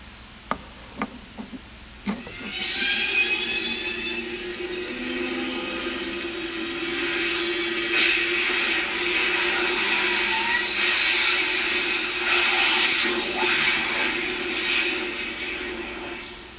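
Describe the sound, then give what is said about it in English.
Doc Brown's time machine sound effect: a few sharp clicks, then a loud sustained rumbling whoosh with a steady hum that swells and holds to the end. “And for people that would prefer the sound of Doc Brown's time machine, I found something on that too.”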